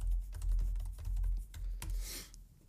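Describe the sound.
Keys clatter on a keyboard as a question is typed to a WhatsApp chatbot. The keystrokes are many, quick and irregular, quiet, with no talking.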